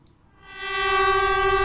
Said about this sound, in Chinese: 和谐长城号动车组从经典的人字形轨道上缓缓驶过，山谷间回荡的鸣笛声像是讲述一个久远的故事。